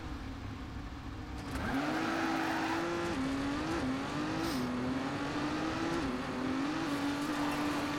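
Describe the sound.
Video-game race car engine from Trackmania, racing over gravel tracks: a high, sustained engine whine that surges in at the start, then holds steady with small dips and rises as the car shifts and takes corners.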